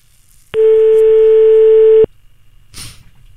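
A telephone line tone sounds while a call is being placed: one steady, loud, mid-pitched tone holding for about a second and a half before it cuts off, followed by quiet.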